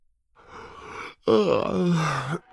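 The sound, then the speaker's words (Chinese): A yawn from someone who has just sobered up and wandered into a living room: a soft breathy intake, a brief pause, then a louder drawn-out voiced exhale whose pitch wavers and sags before trailing off. “易墨尘打着哈欠问道”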